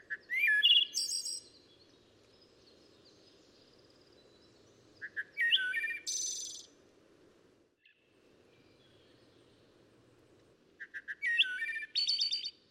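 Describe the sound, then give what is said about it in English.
A wood thrush sings three separate flute-like phrases, each a short cluster of clear, ringing notes. Long pauses separate the phrases, and a steady insect drone hums underneath. “The song of the wood thrush is more golden and leisurely. Its tone comes near to that of some rare stringed instrument.”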